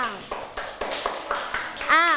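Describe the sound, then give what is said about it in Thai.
Schoolchildren clapping for a classmate in a classroom during a maths lesson: a short series of sharp, evenly spaced claps in a steady rhythm, with a voice heard at the start and again at the end. “ทุกคนปรบมือให้ EQ หน่อยค่ะ”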